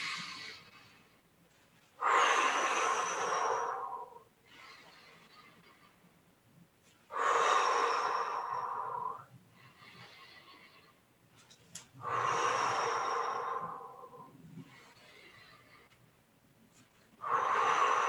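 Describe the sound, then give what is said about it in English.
Deep breaths for a breathing exercise, raising the hands overhead on the inhale and letting go on the exhale: loud, airy breaths come at a slow, regular pace, with softer breaths between them. No voices are heard. “We pull our hands over our head on an inhale and then we let go on an exhale.”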